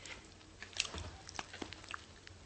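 Faint crunchy bites and chewing of a snack from Tsukiji market, a few irregular crisp crunches scattered over soft mouth noises.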